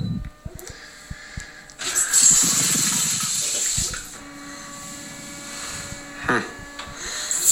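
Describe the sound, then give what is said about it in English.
A bidet sprays water on its turbo setting, a loud, steady hissing rush that starts about two seconds in and runs to the end. A man's voice reacts over the spray. “I'm sitting on the toilet now, and I'm going to use Steve Agee's bidet. I'm going to hit the turbo button, and we're going to see what happens.”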